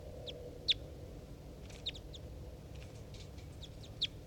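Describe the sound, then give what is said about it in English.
Short, high chirps come from three caged birds, a decoy and wild birds, calling as they interact. Three sharper calls stand out among a few fainter ones over a low, steady background hum. “I'm recording the three birds as they interact. Decoy? Decoy?”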